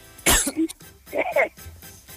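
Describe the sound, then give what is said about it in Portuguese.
A person coughs once sharply, followed by a shorter, rougher throat-clearing rasp. “Pois deu uma tosse.”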